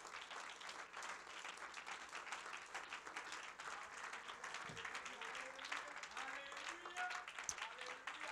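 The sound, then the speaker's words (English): A church audience claps their hands during a service: fairly soft, steady, rapid clapping from many people continues throughout, with voices faintly present over the later part. “Would you clap your hands to the Lord in this place?”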